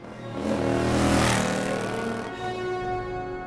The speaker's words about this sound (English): Later, the gates to the mansion open, and Wolverine rides out on his motorcycle.